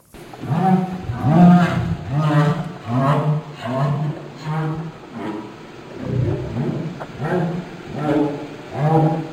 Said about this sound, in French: on va écouter le son, pour le coup, qui relèverait plus d'une communication sociale, toujours d'une baleine à bosse